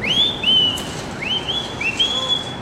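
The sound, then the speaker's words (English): Whistled calls from a person trying to summon their mother outside the home where they grew up on the Lower East Side of New York: three high, rising whistles, each sliding up and then holding a steady note. “I bet you if I whistle, she'll come up with”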